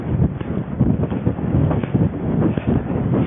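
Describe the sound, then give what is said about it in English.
Wind blowing on a beach while someone runs on dry sand between two beaches: loud, steady, gusty roar and rumble buffeting the microphone throughout, with no talk. “You can probably hear the wind. I'm running on the dry sand now between two”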